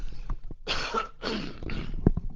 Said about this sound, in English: Another cough there, sorry.